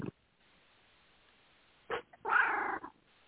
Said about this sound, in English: Sorry, that's the cat.